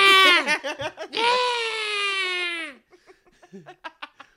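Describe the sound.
A voice imitates a crying infant with a loud, high-pitched wail: a shaky first burst, then a long sustained cry that drops in pitch as it ends, followed by a few faint, brief sounds.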